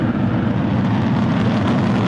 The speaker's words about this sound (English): 2-1, ignition, and liftoff. Go Falcon, go Dragon, and go Crew 13.